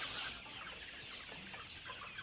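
Chickens cluck and chirp softly as the flock settles down for the night, a faint, steady mix of overlapping calls with no talking.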